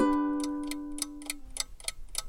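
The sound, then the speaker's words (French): Clock ticking in crisp, evenly spaced ticks, about three per second, after a short decaying chime-like tone at the start, with no voices. “Le tic-tac de l'horloge ?”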